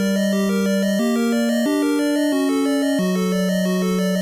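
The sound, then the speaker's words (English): Dungeon music from the original Legend of Zelda video game, played in bright electronic chip tones. A melody in the bass steps up and then back down under a steady, rapidly repeating arpeggio on top, with no voices. “For example, when you enter a dungeon, the music sounds like this.”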